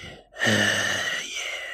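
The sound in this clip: A voice imitating slow, heavy breathing: after a brief silence comes one long, breathy drawn-out exhale with a slight rasp that fades gradually, fairly soft and alone.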